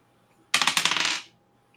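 Dice are rolled during a tabletop role-playing game death saving throw: a quick rattling clatter of many sharp clicks, less than a second long, standing alone in near silence.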